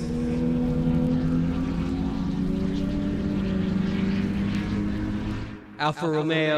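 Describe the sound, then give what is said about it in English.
Racing sports cars, among them Alfa Romeo, Abarth-Fiat, OSCA and DB machines, drone past in the distance. Their engines make a continuous, layered hum with a slowly shifting pitch that cuts off near the end. “Alfa Romeo, Abra Fiat, Oscar, and DB. You're off in the distance now, but they're coming back.”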